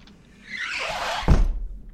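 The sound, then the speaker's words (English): A locked door in a high-rise apartment suddenly opens, with a rising rush of movement and a squeal that ends in a solid, heavy thunk, then a short click at the end. “Lenore Kotnik types these words at her workstation cubby in her high-rise apartment when her locked door suddenly opens.”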